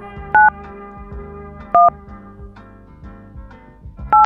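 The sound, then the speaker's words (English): Telephone keypad tones are entered at an automated prompt for a 10-digit number. Three short, evenly loud two-note beeps are separated by gaps of over a second, over a quiet low humming bed. “To have your call completed, please enter your 10-digit phone number after the tone.”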